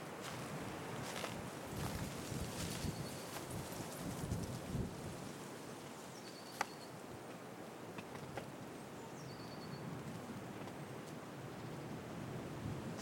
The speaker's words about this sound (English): You can hear the wind blowing dry leaves and the footprint.